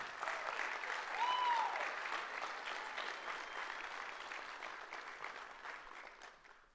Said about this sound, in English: I want to welcome to stage Carlos Perez and Christy Martinez. Give them a hand, please.